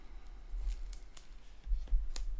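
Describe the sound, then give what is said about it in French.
Pages of a big book rustle and flip as it is opened at random, giving a few dry papery swishes and crackles over a low, steady rumble, with no voices. “je prends un livre, un gros livre, et je vais l'ouvrir au hasard.”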